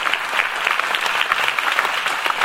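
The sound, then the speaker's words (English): A church audience claps their hands together in praise, a dense, even wash of many hands clapping loudly and steadily for the whole stretch. “Clap your hands for the Lord Jesus.”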